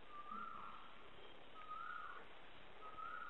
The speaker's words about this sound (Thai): นี่ร้องอีกแล้วดูมันร้ายไหมร้องมันร้องมันเงียบเลยที่นี่นกเยอะนะลองฟังดูลองฟัง